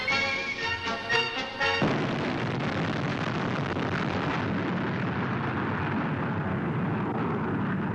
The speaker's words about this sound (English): at Lark Hill, the surface-to-surface missile was demonstrated up to the moment of firing, which is carried out some 50 yards away. This takeoff was filmed on another site.